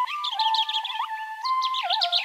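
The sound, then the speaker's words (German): A European robin sings a continuous run of thin, high, warbling whistled phrases with quick pitch slides and trills, fairly loud and alone, pausing briefly near the middle before another burst of notes. “Zum Beispiel das Rotkehlchen kann 275 Strophen singen, haben mal Leute gezählt.”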